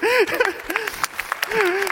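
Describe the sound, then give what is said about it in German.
Audience applause, a steady patter of clapping heard beneath a loud speaking voice. “Ein großer Applaus.”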